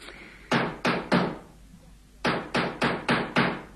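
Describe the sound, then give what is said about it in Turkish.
Knocking on a door comes in two bursts: three sharp, loud raps, a pause, then five more evenly spaced knocks. No voices are heard. “Ah, İlyas gelmiş olmalı. Bu kez gecikmedi nasılsa. Açıyorum.”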